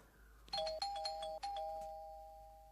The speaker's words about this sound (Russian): Найдя нужную дверь, нажимает на звонок.